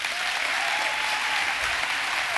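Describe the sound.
Applause from an audience welcoming a speaker to the stage at a Seacoast gathering: loud, even, sustained clapping throughout.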